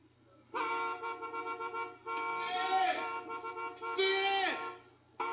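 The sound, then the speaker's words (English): A stuck car horn blares in a few long, sustained honks with a bright, buzzy tone, each blast held for a second or more before dropping slightly in pitch at its end. “Oh, what's wrong with this vehicle? Don't tell me your horn is stuck.”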